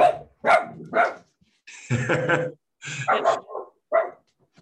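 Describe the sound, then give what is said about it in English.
A guest dog kept in a home barks several times in short, sharp bursts. One longer, rougher bark falls in the middle, and a few quicker yips follow. “We have a dog. We have a guest dog.”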